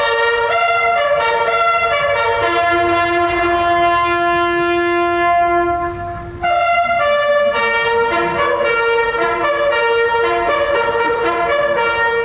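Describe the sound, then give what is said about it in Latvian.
A bugle plays the Last Post at the nightly evening ceremony in Ypres, Belgium, with long, loud, sustained brass notes stepping between pitches. The call has one brief break midway before it resumes. “Katru vakaru, precīzi 8:00, īpašā ceremonijā, ko pavada godasardze un bērnu koris, šeit izskan pēdējais tauris signāls.”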